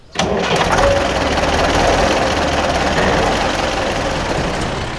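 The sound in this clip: A tractor engine runs with a loud, steady, rough droning rumble that begins abruptly and holds evenly for the whole stretch.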